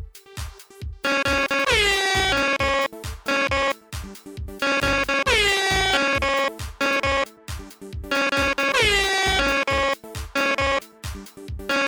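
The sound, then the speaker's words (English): Blaring air horns play a short theme tune: staccato blasts and a swooping note form one phrase that repeats three times, loud and alone. “The Ben theme song as sung by air horns.”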